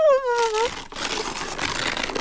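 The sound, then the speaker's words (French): Blue star-patterned wrapping paper is torn open with a sustained, crinkly rustling rip, following a brief high wavering tone at the start. “Toudou déchire le beau papier bleu étoilé.”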